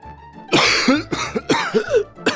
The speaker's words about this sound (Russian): Громкий прерывистый кашель привлек все взгляды к лежащему профессору защиты.